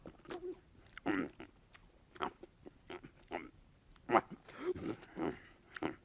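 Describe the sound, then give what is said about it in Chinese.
Someone eats a piece of food, a run of irregular biting and chewing bursts with moist smacking, moderately faint and alone. “我就把他那块呀给吃了。”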